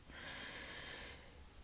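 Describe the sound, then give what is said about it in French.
A deep breath taken during a guided relaxation meditation: one soft, airy rush of breath, faint and heard alone. “Je vous invite maintenant à prendre une grande inspiration et à souffler profondément dans l'intention d'installer de la détente en vous.”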